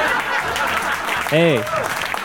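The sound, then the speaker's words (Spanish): Canned applause sound effect: an even wash of crowd clapping, with a short vocal interjection cutting in over it partway through. “Aplausos enlatados. ¿Qué es lo que le faltaba a este programa, sin duda?”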